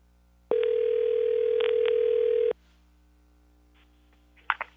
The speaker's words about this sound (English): All right, hang on. Dialing now.